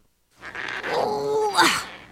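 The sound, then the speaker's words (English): A person groans while straining to open a stuck jar in a kitchen. The strained vocal groan is sustained and effortful, with a short rise near the end before the pitch drops away. “I wish I could get this stupid jar open.”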